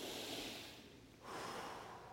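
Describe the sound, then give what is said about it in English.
A slow deep breath drawn during a guided breathing exercise, soft and airy, with a long breathy stretch that dips briefly and then swells again, heard alone without talking. “Now, take another breath with me.”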